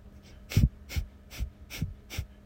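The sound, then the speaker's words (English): Five forceful breaths puffed out through the mouth with the cheeks inflated during a breathing exercise. They are evenly spaced about every half second, each a short breathy burst with a low thump. “with puffing up our mouth. So it sounds like this. So my cheeks are actually puffing out.”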